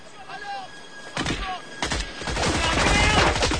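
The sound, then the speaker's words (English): Gunfire from five men shooting from a beach: a couple of sharp bursts at first, then a sustained, louder volley of rapid shots that continues to the end. “Five of Shahid's men appear on the beach, stop to take aim and open fire on the distant figures.”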